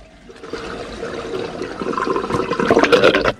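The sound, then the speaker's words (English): Bath water draining after the plug is pulled, a rushing, gurgling wash that swells steadily louder and more turbulent toward the end before cutting off abruptly. “He looks away, pulls the plug, letting the water drain, and puts his rings back on.”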